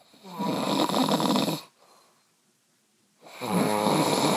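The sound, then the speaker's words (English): A man snores loudly at 2 a.m. Two long, rasping snores are separated by a quiet pause, with no talk over them. “His snoring is so loud that he can't even hear what I'm saying right now.”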